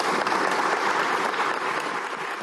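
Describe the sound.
Audience applause given as a minute-long tribute to murdered and disappeared women journalists at a women journalists' forum, dense, loud, continuous clapping from many hands at a steady level.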